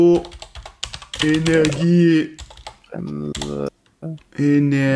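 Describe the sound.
Quick clicking keystrokes on a computer keyboard as a word is typed, with a voice talking over and between the taps.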